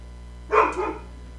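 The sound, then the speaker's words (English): A dog gives a short, sharp bark burst with a second, lower-energy yelp just after it. The sound is loud against a quiet background, and no one talks. “That's a doggo. Yeah, that is a doggo.”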